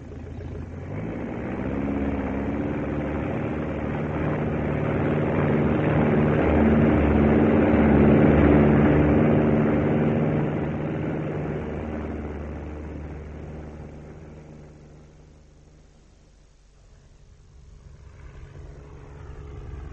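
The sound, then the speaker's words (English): A propeller aircraft takes off and climbs, its steady droning engine hum with layered tones swelling gradually louder, then fading away to quieter noise. “So far, so good. Takeoff was quite smooth. He's holding steady. 400 feet.”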